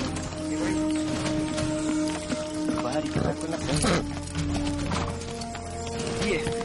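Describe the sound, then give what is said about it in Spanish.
Hooves of a horse clip-clop steadily as it walks through open ground, carrying two boxes of belongings on its back in a period film scene; a voice speaks over the hoofbeats. “Al día siguiente camina por una zona más despejada de vegetación. El equino lleva sobre su lomo dos cajas con las pertenencias de Simón.”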